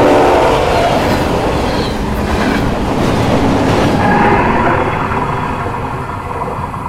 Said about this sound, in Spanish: Lo último que pudo ver tras golpearse contra el suelo fue al tren avanzar a toda velocidad hacia ella